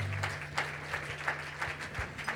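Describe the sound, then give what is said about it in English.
Congregation clapping in church, a steady rhythmic beat of many claps kept in time, over a low sustained hum. “Don't stop praising. Keep clapping.”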